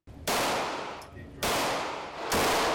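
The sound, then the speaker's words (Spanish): Three loud, sharp gunshots ring out at an outdoor shooting range in Summerville, South Carolina, spaced about a second apart, each followed by a long decaying tail. “Sábado por la mañana en un polígono de tiro en Somerville, Carolina del Sur.”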